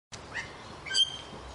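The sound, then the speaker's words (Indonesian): A Bali starling, an endangered songbird, gives a few short, bright chirps. The faint calls rise over a low, steady hiss. “burung jalak Bali yang terancam punah”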